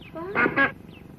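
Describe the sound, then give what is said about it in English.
A female mallard duck with clipped wings gives two short, harsh quacks in quick succession, fairly loud and heard on their own. “I borrowed a female mallard from Jim Teal”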